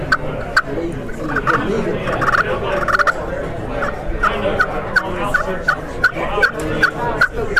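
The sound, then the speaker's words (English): Turkey yelps and clucks from a hunting call with a soundboard and supports, open on both ends. Many sharp, high notes repeat in a steady rhythm over a low, rumbling background. “And you can play it louder. But right there's where I kill turkey at.”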